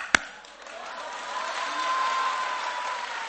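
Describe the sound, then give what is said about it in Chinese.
Audience applause swells after a single sharp knock, building into a steady, dense patter of clapping from many hands that holds to the end. “人这底下 鼓掌啊”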